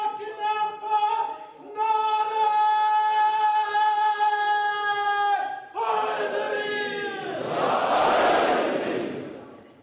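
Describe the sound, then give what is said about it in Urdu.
Crowd chanting devotional slogans at a religious gathering, many voices joined in sustained unison phrases with short pauses between them, ending in a loud rough roar of massed voices. “آپ دھکے کی نعرہ نہ لگائیں, عقیدت کا نعرہ لگائیں, عقیدت”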